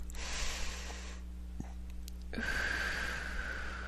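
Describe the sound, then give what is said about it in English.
Deep breathing during a guided heart-centered meditation: two long, soft, airy breath sounds, in through the nose and out through the mouth, separated by a short pause, faint and alone without talk. “So let's take some nice deep breaths in through the nose and out through the mouth.”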